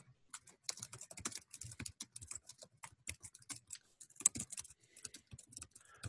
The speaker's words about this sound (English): I'm going to type something over to you. Give me a sec.